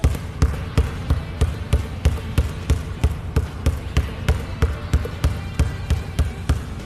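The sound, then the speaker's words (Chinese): A basketball is dribbled low and fast in a coaching drill, giving many sharp, even bounces in a steady quick rhythm with no pauses. “所以说运球要快一些，好吧，我们再尝。”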